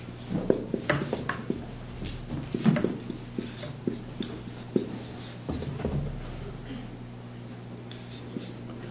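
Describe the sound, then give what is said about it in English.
An expression is written up on a board: short scratchy strokes and light taps come in irregular bursts over a steady low hum, fairly quiet throughout. “Let's look first at the question, what does the expression from faith to faith mean? And let me write the expression up.”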